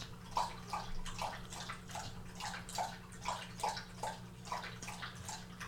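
A pet laps water from a motorized water dish that is running low. Many faint, rhythmic laps and splashes repeat steadily over a low, constant motor hum.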